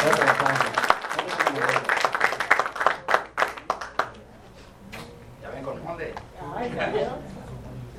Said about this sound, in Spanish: así que démosle un fuerte aplauso a Sara Calderón